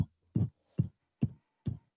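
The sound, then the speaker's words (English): A voice imitates a four-on-the-floor techno bass drum with four evenly spaced, deep, punchy thumps, steady like a heartbeat, with short silences between them. “that four on the floor, that bass drum that just goes,”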